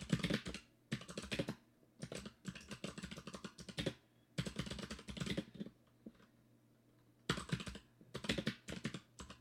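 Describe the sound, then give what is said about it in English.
Typing on a computer keyboard: rapid clicking keystrokes in several bursts separated by short pauses, fairly quiet and with no voices. “Now type in the Ask Me Anything. Just type in, create me an image of Elon Musk and Mark Zuckerberg fighting it out, Rocky Balboa style.”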